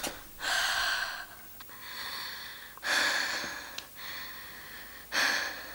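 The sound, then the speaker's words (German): Deep in-and-out breathing through an open mouth during a stethoscope check of the belly. Three loud, airy breaths alternate with softer ones in a slow, even rhythm, with no talking. “Mal bitte ganz tief ein- und ausatmen mit offenem Mund.”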